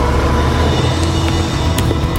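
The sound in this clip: A car driving off, heard as a steady, low engine rumble with road noise that stays even and continuous for about two seconds, with no voices.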